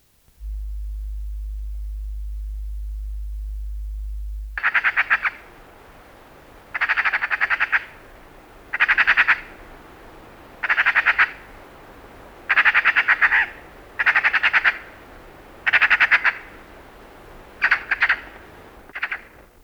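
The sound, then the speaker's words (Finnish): Hooded crow calls: a series of about nine harsh, rasping caws at an even spacing, each short and loud. A low steady tone plays alone before the calls begin. “Varis.”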